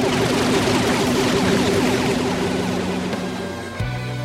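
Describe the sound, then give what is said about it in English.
A sci-fi smother ray weapon firing in a comedy audio drama: a loud, dense, rattling barrage that runs for nearly four seconds and ends in a sudden low thump. “Their bolstering wasted just enough time for me to charge the smother ray. Fire!”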